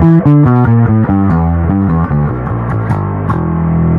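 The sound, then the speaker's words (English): Bass guitar played through its P pickup, sent to both stereo outputs: a busy line of many plucked notes, loud and full, with a slightly gritty edge. “You can actually run one pickup through both outputs. So just a P pickup through both would sound like this.”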